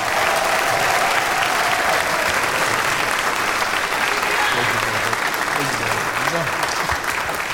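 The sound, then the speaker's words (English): Audience applause welcomes a speaker at a church gathering: dense, steady clapping fills the whole stretch at an even loudness, with a voice faintly audible beneath it. “would you please put your hands together and welcome Dr. Lungisi Mashlope.”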